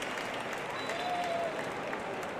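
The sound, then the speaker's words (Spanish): Stadium crowd at an Oviedo football match applauding a player as he is substituted off: a steady, even wash of clapping throughout, fairly soft, with a brief whistle partway through. “Aplausos para Gotti, el autor del primero de los dos que ha metido el Oviedo.”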